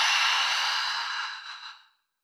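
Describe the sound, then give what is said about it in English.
A single long breath out through the mouth during a breathing exercise, a soft airy rush that gradually fades to silence, heard alone. “Do this 3 more times. Breathe in through your nose and out through your mouth.”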